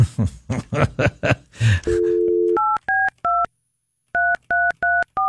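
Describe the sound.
Touch-tone telephone keypad dialing begins after a brief stretch of talking. A steady dial tone sounds, then seven crisp, evenly pitched keypad beeps follow in two quick groups separated by a short pause.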